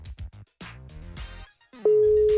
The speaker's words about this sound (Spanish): Vamos a marcarle. A ver si me contesta. Está sonando.